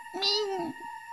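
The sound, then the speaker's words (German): A single short meow from a kitten, about a second long, a bright voiced cry that swells and then trails off over a faint steady background hum. “Was bist du denn für ein süßes Kätzchen?”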